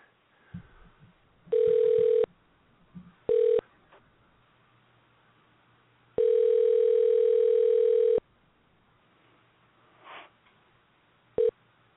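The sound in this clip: A telephone call is dialed and rings out, with a steady electronic ring tone sounding in several buzzing bursts of uneven length. Short beeps and quiet gaps fall between the rings.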